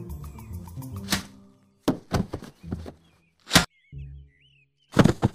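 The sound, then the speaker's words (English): Heavy thuds and sharp thwacks as a laser weapon is swung like a club against two people, several hard blows separated by short gaps, with warbling electronic chirps between the strikes. “Nice job. I thought I'd have to club them both. The laser really wasn't intended to be used as a bludgeoning weapon. I think it is broken.”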